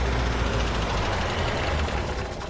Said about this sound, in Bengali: পরদিন সকালে আমরা চা খেয়ে বেরোবো বেরোবো ভাবছি, এমন সময় লালমোহনবাবুর গাড়ি চলে এল।